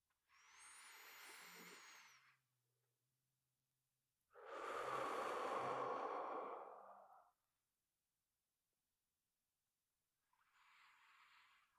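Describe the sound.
Slow, deep breathing during a guided breathing exercise: three long, soft, airy breath sounds separated by quiet pauses, the last one cut off at the end, with no talking.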